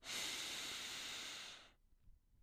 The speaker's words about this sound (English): hold it at the top, and breathe out through the mouth